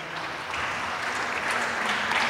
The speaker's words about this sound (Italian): grazie, questo vostro applauso ci incoraggia e nello stesso tempo ci dà ulteriore forza